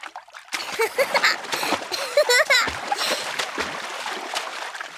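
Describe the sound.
Water splashing in a paddling pool, a run of loud splashes and sloshing that settles into softer rippling, with a high voice calling out over the splashes in the middle.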